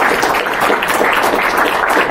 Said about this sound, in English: So I just want to just give them a round of applause for being here.